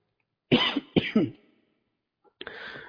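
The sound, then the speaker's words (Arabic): Harsh coughing from someone with a mild cold: a few rough bursts in quick succession, a pause, then another throaty cough that trails off, with no talk. “عندي برد بسيط كده، ف اعذروني في الكحة النهاردة”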